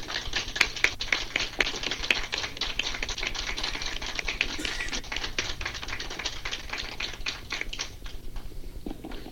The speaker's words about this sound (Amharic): ቤቱም በሙሉ በደማቅ ጭብጨባ ነው መልእክታችሁን የተቀበለው